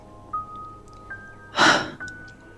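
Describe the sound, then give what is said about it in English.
A woman breathes, letting out a single breathy exhale partway through over a quiet sustained tone and a few faint blips. “She breathes. Rubs her face.”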